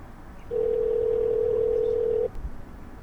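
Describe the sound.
An unanswered phone call with no voicemail gives a single steady electronic ringing tone that lasts about two seconds, then cuts off, leaving faint background noise.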